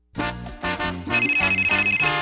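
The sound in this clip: A telephone ringing with a bright electronic ring: a series of short pulsing tones in a steady rhythm, with a sustained high tone joining partway through, played alone with no talk.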